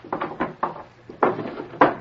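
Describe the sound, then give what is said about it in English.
A desk drawer in an office is unlocked and pulled open, with several short knocks, clicks and rattles in an uneven rhythm and no one speaking. “He stepped to his desk and unlocked the drawer.”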